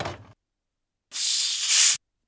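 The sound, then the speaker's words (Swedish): A large cola bottle being opened releases one sharp, steady fizzing hiss lasting about a second. It comes after a short, soft rustle and a moment of silence. “Jag gick nöjt och avslappnat in i köket tog fram en stor kolaflaska och öppnade den.”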